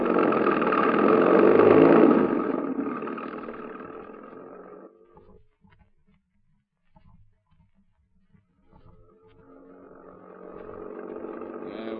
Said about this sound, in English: That's your car I saw parked just outside, isn't it? Yes. Go on out there. Get in it. I'll do the driving.